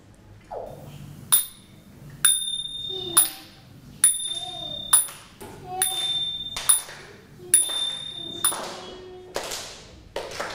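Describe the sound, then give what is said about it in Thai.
Small Thai ching hand cymbals struck many times in an irregular rhythm, each strike a bright, high metallic ping; some are left to ring on while others are damped short. “เสียงตีฉิ่งนั่นเองนะคะเสียงเป็นยังไงคะเสียงฉิ่ง”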